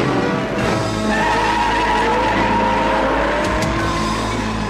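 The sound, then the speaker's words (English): A race car engine drones steadily while tires squeal in long sustained tones. This racing sound effect stays loud and continuous throughout, with no voices. “You hear the brrr and the squealing tires.”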